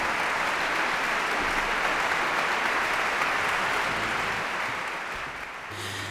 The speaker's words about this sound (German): Applaus. Der junge Dirigent lässt einzelne Musikerinnen und Musiker des Orchesters auch aufstehen, besonders die Bläserinnen und Bläser, die in Ravels Partitur ja einiges zu tun gehabt haben.